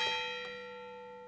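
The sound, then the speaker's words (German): Church bells of a castle church on the castle hill in Altenburg ring out quietly, with sustained overlapping tones that slowly fade and a couple of fresh strikes near the start. “Auf dem Schlossberg in Altenburg ist es still. Sommerschattig, aber mit den Glocken der Schlosskirche schon musikalisch.”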